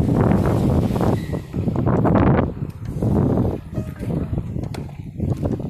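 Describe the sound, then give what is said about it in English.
Wind gusting across a links-style golf course, buffeting the microphone with loud, low rumbling surges that rise and ease several times. “This wind doesn't ruin the podcast.”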